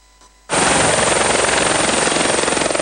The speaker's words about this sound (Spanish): ahí el sonido esperanzador de las aspas del helicóptero